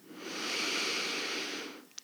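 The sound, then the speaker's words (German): A single slow, deep breath during a guided breathing exercise: a long, steady, airy rush that swells and then eases off, with a tiny click just before it ends. “Und nochmal einatmen, Leichtigkeit, Klarheit.”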